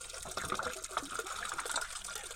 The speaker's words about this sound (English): Water is flowing. Water is coming in. Water is flowing in.